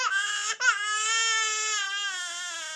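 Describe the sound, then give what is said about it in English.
A baby cries in a high, strained wail. A short cry breaks off at a quick catch of breath, then a long, sustained note follows and slowly fades, with no other sounds. “Like, you hear a normal baby crying and it sounds like this, right?”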